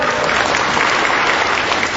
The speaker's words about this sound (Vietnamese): Hay quá, cho người ta phá tay coi, to lên.